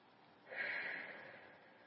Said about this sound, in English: And the way I'm going to do that right now is just take a couple of deep breaths.